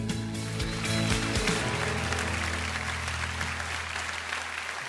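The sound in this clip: Applause from a church audience welcoming a speaker to the front: dense, continuous clapping that stays steady and even throughout.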